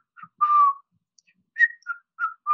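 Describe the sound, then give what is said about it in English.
A person whistles to imitate an eerie whistled tune, a short series of clear, high notes with a long held note early on and brief gaps between the later ones. “It started weirdly where someone started whistling and only me and the little one could hear it. It was a five note whistle. It was like,”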